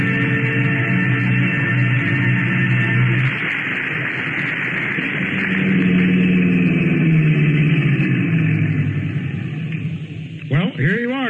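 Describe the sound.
A car engine idles after a drive, giving a continuous low hum that shifts in tone partway through and then settles.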